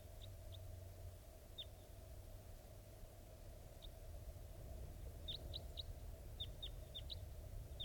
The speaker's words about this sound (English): I think wild birds are flying around somewhere nearby.